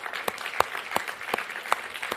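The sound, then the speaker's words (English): Applause for church children's ministry servants: soft, sparse clapping with a few sharper claps standing out at a fairly steady pace. “But hey, let's give a round of applause to our servants. They're not volunteers, they're servants.”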